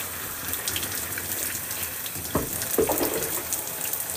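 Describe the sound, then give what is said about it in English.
Skincare bottles are rinsed under a sink tap, with steady running water and a couple of sharper splashes near the middle as the water strikes them. “So I give them a good rinse. And then I'll just put them in the sink”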